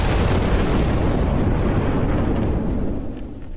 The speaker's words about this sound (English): A missile fires from his nose, flying to Blob and exploding!